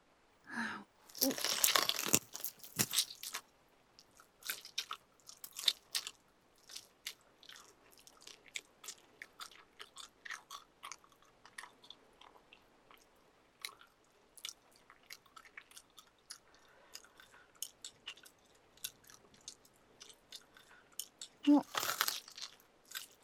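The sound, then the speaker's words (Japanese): Crunchy biting and chewing while eating: loud, dense bursts of crisp crunching near the start and again near the end, with many softer crackling, clicking mouth sounds scattered between them. “小指からゆっくり食べてあげるね。”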